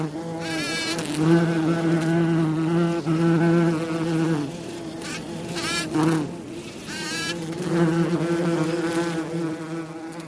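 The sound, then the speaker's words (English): A honeybee buzzes steadily and continuously, its drone wavering in pitch and loudness as it moves about, with no talk. “It is all around us, a little honeybee right here.”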